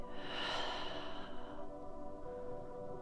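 A slow, deep breath out during a guided relaxation exercise, a soft, airy rush that fades after about a second and a half and leaves a quiet, steady tonal background.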